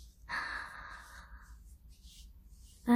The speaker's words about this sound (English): One more time, please. Breathe in.